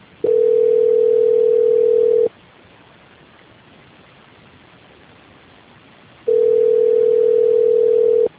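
Telephone tone on a bank call while it is transferred to another department: two long, steady, mid-pitched tones, each about two seconds, separated by a roughly four-second stretch of faint line hiss.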